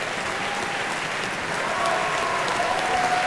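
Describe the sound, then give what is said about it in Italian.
Audience applause at a concert as a singer walks onto the stage: a dense, even patter of many hands that swells a little louder partway through and stays strong to the end. “salutata direi dal pubblico con un certo entusiasmo”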